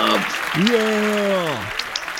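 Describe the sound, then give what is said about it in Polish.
Applause sound effect triggered by a show host: a dense, steady wash of clapping runs throughout, with a long voiced tone over its middle that swoops upward, holds, then slides down. “I tutaj jakieś brawa, oklaski. Gdzie ja mam oklaski? Proszę bardzo.”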